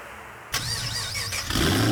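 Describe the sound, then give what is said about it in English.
A car engine bursts into life and revs, its whine wavering up and down in pitch before the roar swells louder at the end. “Rev your engines.”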